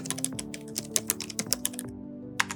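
Typing on a computer keyboard: a quick, uneven stream of many crisp key clacks with a few louder strikes, alone and fairly quiet, pausing briefly before a last cluster of keystrokes.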